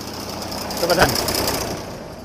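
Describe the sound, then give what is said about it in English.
A tractor engine runs with a broad, rough rumbling drone at an even level. The noise swells briefly louder around the middle, and no clear voices rise above it. “One of the many tractors that are around this place. Everybody seems to have a tractor, apart from us, of course.”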